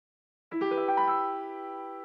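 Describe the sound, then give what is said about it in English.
Piano playing in the key of E minor: a few notes struck in quick succession blend into a rich sustained chord that rings on and slowly fades, played alone after a brief silence. “So I just want to play what that sounds like on the piano. Okay, so we start out in the key of E minor.”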